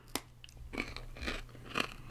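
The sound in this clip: Crunching and chewing of an Anzac biscuit, with a few crisp, quiet crunches spaced out and softer chewing between them.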